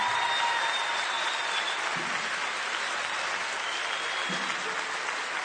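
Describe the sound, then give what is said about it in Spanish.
Audience applause, continuous and fairly soft, holding at an even level for several seconds without a break. “Otro aplauso para estos tres.”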